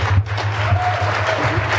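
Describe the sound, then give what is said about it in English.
An audience gives steady applause to presenters after their first talk at a conference. The soft, even clapping runs over a constant low hum. “Let's particularly give them a big round of applause because I'm given to understand not only is this their first presentation, but they really kicked butt, don't you think?”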